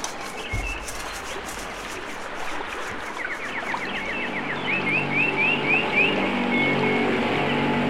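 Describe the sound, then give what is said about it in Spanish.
A motorboat engine on a river in dense, isolated forest, a low droning hum that grows steadily louder through the second half, while birds chirp and call above it. “ya ni se puede estar en paz aquí en el río, porque aparecen haciendo ruido con esa lancha.”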